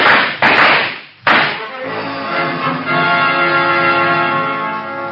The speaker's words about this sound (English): All right, men. Come out quietly. We've got you surrounded. They're firing at us. Let them have it.